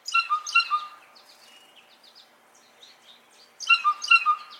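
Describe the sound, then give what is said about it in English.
Blue jay calling from trees in Brooklyn, New York: a burst of a few bright, harsh notes, then quieter scattered calls, then another loud burst of a few notes. “the jay is unmistakable, with vivid sky blue crest and back, fine dark cross-hatching on blue wings and tail, and a black necklace. It's a familiar sight in Brooklyn's trees.”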